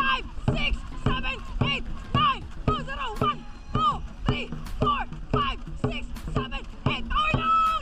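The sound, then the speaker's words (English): A military dragon boat team paddling on water: many rhythmic paddle strokes at a fast, steady beat, each with a splashy thump, while crew voices shout or chant in time with the strokes throughout. “The sound you just heard was the Philippine Air Force Dragon Boat Team.”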